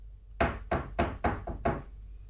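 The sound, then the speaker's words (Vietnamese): Knocking on a locked door, a steady run of several dull, heavy knocks at an even pace, loud and alone. “Tiếng gõ cửa vẫn không ngừng vang lên.”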